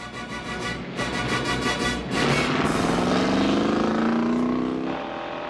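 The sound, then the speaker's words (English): A car reverses and then drives off, its engine revving harder partway through with a clearly rising pitch before it settles into a steady drone. “The driver of the car reverses back. Lon relaxes, and they go on their way again.”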